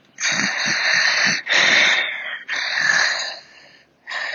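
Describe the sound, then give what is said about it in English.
A voice imitates struggling, heavy breathing: three long, harsh, wheezy breaths separated by short gaps, with a fourth beginning at the end. “The breathing sounded struggled or something. It just didn't sound the way you would think a healthy person's heavy breathing would sound, kind of like,”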